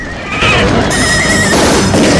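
Horses galloping out of a burning stable whinny loudly, a shrill wavering neigh rising over a dense, noisy rumble.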